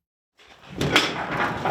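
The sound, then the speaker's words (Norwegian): Door of a grain warehouse near the Polish-Ukrainian border opening: after a brief silence, a broad scraping, rumbling noise builds up and continues steadily to the end, moderately loud. “åpner døren til kornlageret rett ved grensa til Ukraina”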